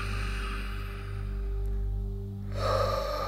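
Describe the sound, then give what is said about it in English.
A deep breath drawn in through the nose and then let out through the mouth during a guided relaxation, soft and airy, ending in a louder breathy release over a steady low hum. “Take a big breath in through your nose and out through your mouth.”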